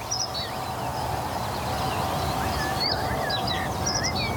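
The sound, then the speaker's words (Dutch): A common blackbird sings short, fluty whistled phrases that rise and fall, faint over a steady bed of outdoor background noise. “Echt ook duidelijk die merel.”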